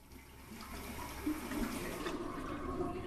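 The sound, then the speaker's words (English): Water runs steadily from a bathroom tap as a woman drinks beneath it, a continuous rushing hiss with no break and no voices. “She takes a pill, then puts her head under the tap to wash it down.”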